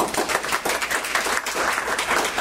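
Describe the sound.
Audience applause welcoming a speaker at a transportation research presentation. Many hands clap in a dense, steady round throughout.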